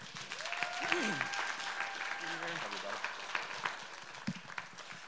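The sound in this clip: A church audience applauds to welcome a guest speaker. Steady clapping runs throughout, with voices and an occasional shout rising over it.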